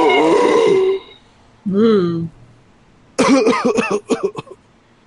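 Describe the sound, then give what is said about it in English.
A man voicing a statue gives two drawn-out raspy groans, then a cluster of harsh coughs and throat clearing as if from dust in the throat. “Pardon me. I had some dust in my throat.”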